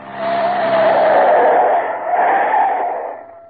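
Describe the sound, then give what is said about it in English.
Tires squeal loudly as a car spins a full turn within its own length while getting away from police. A single sustained screech with engine roar runs for about three seconds, dips briefly midway, then fades out. “I'll do a full turn in the car's length. There she goes.”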